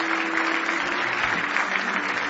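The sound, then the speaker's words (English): An audience clapping hands in praise during a morning church service: many hands in a dense, continuous patter that holds a steady, fairly loud level from start to finish. “Give him one more hand clap of praise this morning.”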